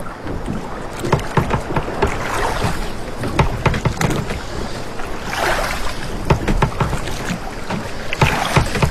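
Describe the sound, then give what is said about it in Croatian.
Oars splashing in the sea as fishing rowboats head out of harbour in the dark, many rhythmic dips and splashes over a constant wash of moving water, with no voices. “na većini je vladao muk i čulo se samo pljuskanje vesala.”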